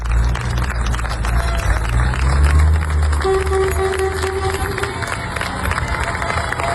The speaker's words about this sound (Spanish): Este es el sonido de la despedida del pueblo de Niebla, los efectivos de la UME que han estado trabajando día y noche